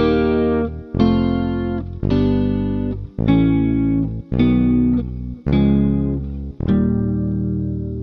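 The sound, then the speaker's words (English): Seven major triads struck one after another, voice-led downward while the bass climbs by whole steps; each full chord rings and decays before the next arrives in a steady, even pulse. “This is what it would sound like if we voice lead major triads descending against an ascending bass.”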